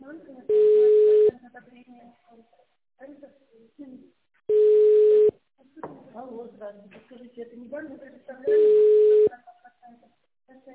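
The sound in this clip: Telephone ringback tone plays while a call is transferred to extension 2115: three long, steady, even-pitched beeps at regular intervals, with a voice talking in the gaps between them.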